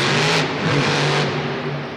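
Steady engine roar of an armed truck with a gun turret on top, driving in a video game. The loud, continuous rumble holds a fairly even level throughout, with no voices.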